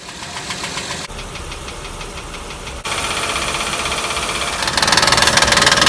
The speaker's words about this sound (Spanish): Ahora, precisamente en el árbol de levas, a veces por calentamiento o por golpeteos, ocurre picadura o erosión en la superficie de giro. Esto puede causar vibración y un sonido como este al funcionar el vehículo.